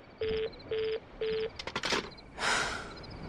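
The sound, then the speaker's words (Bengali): Telephone line tone after a call is hung up: three evenly spaced short beeps at a steady mid pitch, followed by a few brief bursts of noise. “Feluda phone রেখে দিয়েছে।”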